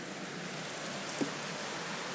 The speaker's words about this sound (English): It is absolutely pouring. We haven't had rain like this in a very long time.